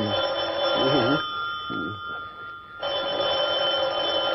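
A telephone bell rings in two long bursts of bright, sustained metallic trilling, separated by a pause of about a second and a half.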